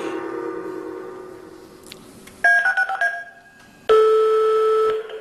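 Touch tones from a telephone number being dialed: a quick run of short beeps, then a longer steady tone, loud over a faint background hum.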